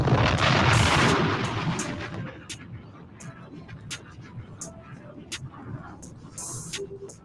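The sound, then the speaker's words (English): Bomb-drop sound effect with explosions: a loud, rumbling blast opens and slowly fades, then gives way to many sharp crackling bursts like scattered gunfire. “Let's go ahead on and drop the smart bomb. Let's go ahead and drop the smart bomb for Lazy Bone.”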